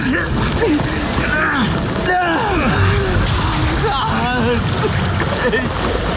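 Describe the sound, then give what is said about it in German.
A rowing boat splashes and sloshes through water thick with a layer of foam, a steady churn under voices that talk, strain and gasp throughout. “Rudern Sie, rudern Sie.”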